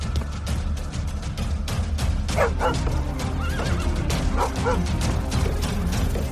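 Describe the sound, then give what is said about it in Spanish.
A horse and a mule neigh and kick in a stable overrun with vipers, with several shrill whinnies rising above a constant clatter of stamping and knocking hooves. “Allí, a la luz del farol de viento, pudieron ver al caballo y a la mula debatiéndose a patadas contra 60 víboras que inundaban la caballeriza.”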